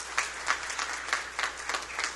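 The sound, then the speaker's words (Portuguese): Applause at a civic ceremony in Santa Maria de Itibá honoring a local couple's role in building a cooperative. Dense, sustained clapping from a crowd, with several louder surges throughout and no voices over it. “Uma salva de palmas.”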